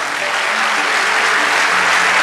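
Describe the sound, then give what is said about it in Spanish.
Applause from the audience at a church service, a dense, steady clapping that stays loud and even from start to finish. “Vamos, dale ese aplauso”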